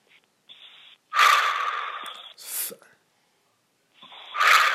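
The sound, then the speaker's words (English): Heavy breathing in and out through the mouth: a few loud, rushing breaths, one long and strong, separated by short gaps and alone without talk. “Just breathe in and out 5 times heavily. Breathe in and out 5 times heavily with your mouth.”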